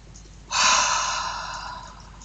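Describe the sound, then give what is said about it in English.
A single deep breath starts suddenly and loud, taken as part of a guided breathing exercise. It is a broad, airy rush that fades slowly over about a second and a half. “three big deep breaths in through the nose and out through the mouth.”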